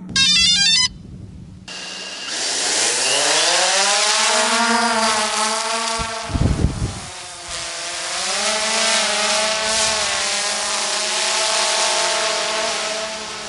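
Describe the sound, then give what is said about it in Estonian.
A white drone flying back and forth overhead at a Tallinn parking lot whines steadily, its buzzing motor tones sliding up and down in pitch as it moves, after a short electronic jingle at the start. “meie peakohal lendab edasi tagasi valge droon”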